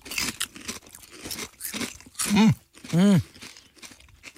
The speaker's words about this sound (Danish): Fordi mængden af kartoffel og salt og dip skal jo helst være sådan ens, ikke? Ja, så jeg prøver chip og holde det dip nummer 2.